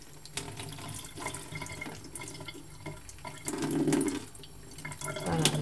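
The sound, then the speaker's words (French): Running tap water as fermentation grains are rinsed under it: a continuous hiss of flowing water with small splashes, swelling louder in the middle. “Je le rince, c'est pas obligé, mais bon. Je vais la rincer un petit peu.”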